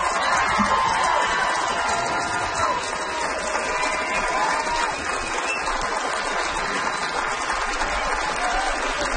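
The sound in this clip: A stand-up comedy audience applauds and cheers after a comedian's set. Loud, continuous clapping is mixed with scattered whoops and crowd noise and stays steady for about nine seconds.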